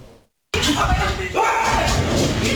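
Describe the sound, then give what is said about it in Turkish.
A street fight with kicks and slaps in Şişli, Istanbul, between step-siblings and their mothers, recorded on a mobile phone. A brief silence gives way to loud, chaotic shouting, yelling and scuffling that continue to the end. “İstanbul Şişli'de üvey kardeş ve abla anneleriyle tekme tokat kavga etti. O anlarsa cep telefonu kamerasına yansıdı.”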